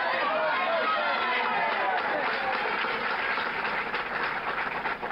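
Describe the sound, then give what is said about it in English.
A crowd surges as Bobby Kennedy exits through the kitchen pantry of the Ambassador Hotel in Los Angeles. It sounds muffled and dull, a continuous din of overlapping voices and movement. “Okay, so what you hear now is Bobby Kennedy exiting through the kitchen pantry of the Ambassador Hotel in Los Angeles.”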